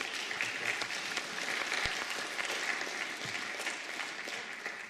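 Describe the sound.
Applause from a church audience welcoming a speaker to the front on a Missions Sunday: dense, steady clapping that holds at an even loudness for the whole stretch, with no voices standing out.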